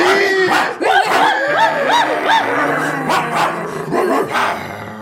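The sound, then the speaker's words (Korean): Several large dogs in collars burst into a barn, barking and snarling loudly in an overlapping, continuous tumult of rough barks and growls with no pause. “이윽고 누스의 장식이 박힌 목걸이를 한 커다란 개 아홉 마리가 헛간으로 뛰어들어와 곧장 스노볼을 향해 달려들었다”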